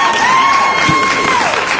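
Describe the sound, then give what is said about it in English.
A canned applause and cheering effect, triggered from a button during an awards nomination segment: a dense burst of crowd clapping and cheers, loud and steady for a couple of seconds. “I can't find the applause button. There it is.”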